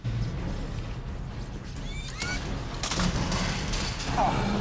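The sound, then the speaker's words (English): A P90 is fired in a science-fiction film fight scene, with bursts of gunfire crackling over a busy background. Sharp shots begin about midway and recur through the second half, mixed with clanks and other action noise. “Mitchell fires at him to no effect.”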